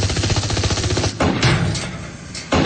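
Gunfire sound effect in a radio drama battle scene: a dense, rattling burst like automatic fire, then a few sharper separate shots, loud and without voices.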